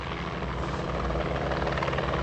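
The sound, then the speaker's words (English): News helicopters buzz overhead in a steady, throbbing rotor drone that stays loud and even for the whole stretch, with no voices. “News helicopters buzzed over Woodside Hospice”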